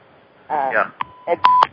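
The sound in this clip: Short electronic beeps sound on a telephone line as an incoming call connects, three brief tones following a moment of voice.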